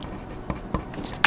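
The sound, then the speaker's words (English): Pencil writing on paper: a few short, dry scratching strokes with brief pauses between them over a low, steady background, with no talk. “So, good thing I'm writing in pencil.”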